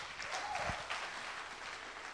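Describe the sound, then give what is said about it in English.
Steady applause from a church audience welcoming a singer to the front, a dense, even clatter of clapping hands that holds at a constant level for about two seconds. “Let's put our hands together and welcome him.”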